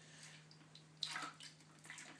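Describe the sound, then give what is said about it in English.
Water from a leak dripping into a collecting bucket: faint, soft drips and splashes over a low, steady hum, with one more distinct drop standing out. “Quite a steady drip. Actually, I better keep that underneath there for a bit.”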